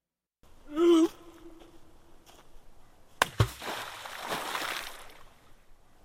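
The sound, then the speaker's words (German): A stone plunges into deep water with a sharp splash, followed by a couple of seconds of sloshing, churning water that fades out, after an earlier brief tonal sound. “Tiefes Wasser schluckt den Stein.”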